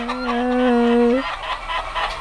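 A rooster crows once in a farmyard at half past six in the morning, at feeding time for the chickens. The crow is a long, sustained call ending in a brief upward flick, followed by low background noise.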